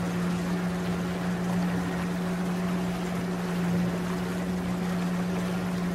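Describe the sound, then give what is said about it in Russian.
Steady engine drone of a large motorboat carrying a minivan: a constant low hum with even wash and rumble throughout, no voices. “Нам показывают, что минивэн стоит на большой моторной лодке. Лодочник у руля сзади.”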